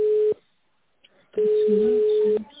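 Telephone tone on a call being transferred to an internal extension: a steady, loud mid-pitched tone sounds briefly at the start, then returns for about a second after a short silence.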